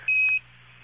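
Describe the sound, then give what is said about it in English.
A spacecraft master alarm, set off during a high oxygen-flow fault, sounds one steady, high-pitched electronic tone lasting about a third of a second over a low, constant electrical hum. “We got so many master alarms in here, it looks like the simulator.”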